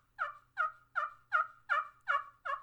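Seven evenly spaced, raspy turkey yelps are played on a slate-topped wooden box call with hickory corn cob strikers. The device imitates a turkey in a steady, rhythmic series of fairly faint, high notes with no talk.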